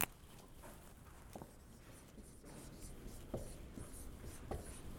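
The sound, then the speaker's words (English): Faint scratching and squeaking of a marker or chalk writing on a board during a business finance lecture; soft, uneven strokes with a few sharper taps, quiet and without speech. “if I'm not writing large enough for you in the back, let me know, and I'll write even bigger.”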